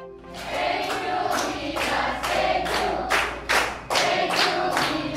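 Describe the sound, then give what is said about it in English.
Young female basketball players cheer and clap in welcome for a women's national basketball team returning home with gold from the Southeast Asian Games: loud, steady rhythmic clapping in regular beats under a wash of shouting, cheering voices. “What you're hearing are young Filipina basketball players welcoming the Gilas Pilipinas women home after they won gold at the 31st Southeast Asian Games.”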